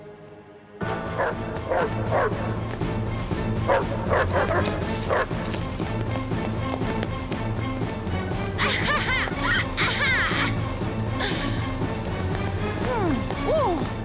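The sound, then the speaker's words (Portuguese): A dog barks loudly and repeatedly with a few yips and whimpers, while crashing and thwacking impacts are mixed in throughout. “Acho que talvez o ladrar fosse desnecessário.”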